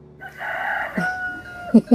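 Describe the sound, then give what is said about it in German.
A rooster crows behind a hut: one long, sustained cock-a-doodle-doo that holds steady, then two short, loud bursts close together at the end. “Das ist mein Freund, der Gockelhahn.”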